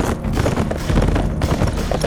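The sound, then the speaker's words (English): Hooves of two galloping horses, a buckskin and a chestnut, on a trail: a rapid, continuous clip-clop that stays fairly loud throughout, with no voices. “set her horse leaping ahead into a gallop. The kid was right behind her, his buckskin pulling even with her chestnut within a few strides.”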